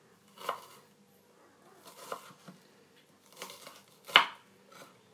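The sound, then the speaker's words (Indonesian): Chopping an onion: a few soft, irregularly spaced cuts with a faint crisp crunch, quiet overall with pauses between strokes. “aku lagi motongin bawang bombay”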